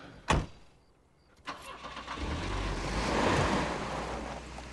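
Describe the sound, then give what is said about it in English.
A car engine starting as the car pulls out in the dark past motel rooms: two sharp clicks, then the engine catches and swells into a steady, building rumble. “goes around to the driver's side of the car and gets in behind the wheel.”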